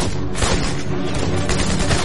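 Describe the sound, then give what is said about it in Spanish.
Rapid gunfire as Canadian soldiers shoot at German soldiers during a Second World War skirmish: a loud, dense barrage of overlapping shots and booms with no clear pauses. “Los canadienses sacan las armas primero. Major dispara sucesivamente a tres de los soldados”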